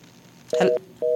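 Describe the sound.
Telephone line tone after a radio call-in caller drops: two steady tone pulses separated by a short gap, the second running on to the end, with a brief clicky burst as the first begins.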